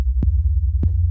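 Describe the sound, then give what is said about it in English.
Overlapping 808 bass notes producing a wobble: a loud, deep sustained bass tone with a beating, pulsing waver, broken twice by sharp note attacks. “Okay, you can hear that wobble, especially when we go a little bit lower.”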